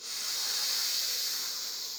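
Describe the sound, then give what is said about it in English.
A slow nasal inhale during a guided seated breathing exercise, held for a count of four: a steady, airy hiss that stays even and fairly loud for about two seconds, with no talking. “Let's inhale through our nose for a count of 4 on the inhale.”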